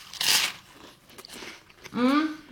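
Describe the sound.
A crisp crunching bite into a sandwich of pesto, salami, mozzarella, sun-dried tomato, lettuce and butter, a short loud burst followed by quieter chewing, then a voice sounding briefly.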